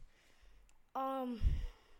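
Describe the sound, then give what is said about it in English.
Heavy breathing from a man out of breath after running upstairs: a single loud, voiced exhale that trails into a low, breathy rush. “He ran all the way from upstairs. That's why he's out of breath.”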